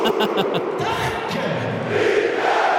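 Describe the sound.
A football stadium crowd roars after Rapid's opening goal in a UEFA Europa Conference League match. The dense, sustained roar carries high chant-like cries at the start and swells again toward the end.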